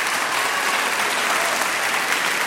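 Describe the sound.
Studio audience applause, a dense, continuous roar of many hands clapping, loud and steady from start to finish with no other sound standing out.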